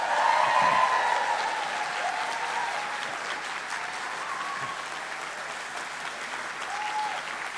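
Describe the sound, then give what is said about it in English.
Audience applause fills the Pavilion Theatre in Dún Laoghaire as writer Claire Keegan is welcomed onstage. The clapping is dense and sustained, loudest at the start and then easing a little into an even, continuous patter. “What a nice reception that is for Claire”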